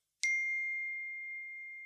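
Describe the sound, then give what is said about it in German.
A message notification chime as a photo is sent on a phone: one bright, high ding that rings on as a pure tone and fades slowly over two seconds, heard alone. “schicke ich dir jetzt ein Foto. Ja, freilich. Rüber in WhatsApp und für euch rüber auf Instagram.”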